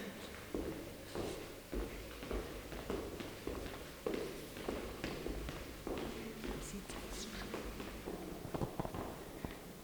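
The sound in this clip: Footsteps walk through an exhibition at the MMKK art museum: a steady series of soft, fairly even taps at walking pace, quiet and continuous.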